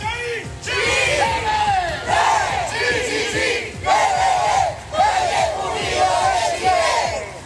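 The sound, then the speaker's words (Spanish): About a hundred Malleco Unido football fans chanting as they march through the city centre, loud group shouts in repeated rhythmic phrases that swell and briefly dip between lines. “ahí está parte del sonido ambiente de un centenar de hinchas de Malleco Unido que salieron a marchar durante esta tarde acá en el centro de la ciudad”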